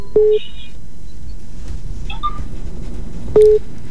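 Telephone tones on a line during a radio song-request call-in: two short, steady beeps, one at the start and one near the end, over a constant low hiss.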